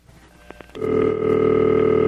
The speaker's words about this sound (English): I'm going to play the sound of a number one crossbar.